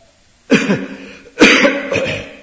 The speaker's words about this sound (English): now I'm coughing. I'm allowed to cough.